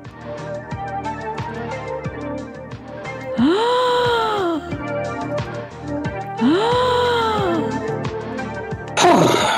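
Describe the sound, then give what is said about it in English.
Gasp sound effect played over a steady rhythmic musical backing: two drawn-out voiced gasps, each rising and then falling in pitch, followed by a brief noisy burst at the very end. “I'm going to play the gasp anyway.”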